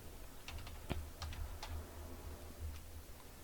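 Keystrokes on a computer keyboard as a search is typed, a few faint scattered clicks over a steady low hum.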